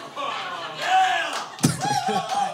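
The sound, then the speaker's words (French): A man shouts from the audience in loud, high, strained bursts among other voices, with a sharp thump cutting in about midway. “C'est mon public. C'est le gars qui crie derrière toi.”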